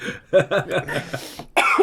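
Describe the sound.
A person coughs in a few short, harsh bursts in quick succession, then a louder throaty burst follows after a brief pause.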